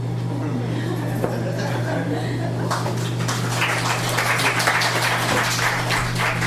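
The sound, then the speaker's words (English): Applause for Neil Gaiman at a poetry reading: a voice is heard first, then a wash of clapping rises midway and continues to the end over a steady low hum. “Applause is for Neil Gaiman, one of my heroes.”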